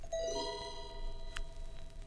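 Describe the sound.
A doorbell chime rings faintly, its bright tones sustaining and slowly fading over about two seconds against a soft background hiss.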